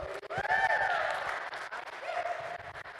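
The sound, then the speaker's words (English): A church audience applauds the worship team with a sustained wash of clapping that thins out toward the end, and a voice is heard over the applause. “Thank you, worship team. Let's give them a hand again.”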